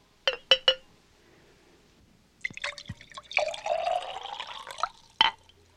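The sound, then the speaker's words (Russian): Wine is poured into a royal cup. Three quick clinks are followed by a pause, then a short bubbling trickle of liquid and one final clink. “Возьми эту чашу. Это моя чаша. Слушаюсь, ваше величество. А теперь наполни ее вином.”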